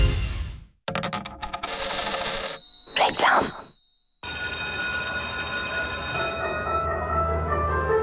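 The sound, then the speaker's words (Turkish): A school bell rings in two long, loud, buzzing metallic bursts separated by a short break, with a brief clattering rattle in the gap, and the ringing fades slightly toward the end. “Güzel çalıyor değil mi? Ya insanın içine huzur veriyor. Anne babaların bu ara en sevdiği parça okul zili.”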